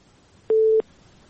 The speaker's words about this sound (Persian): بله خب تماس از ایام برقرار نشد، تماس بعدی رو میگیریم.